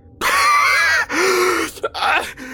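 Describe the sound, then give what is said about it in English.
A voice imitates an asthmatic wheeze meant as laughter, with strained, groaning breathy bursts. A long rasping tone breaks into a few shorter, choppy wheezes, loud and with no words. “My asthmatic lungs pushed out a wheeze that was meant to be served as laughter.”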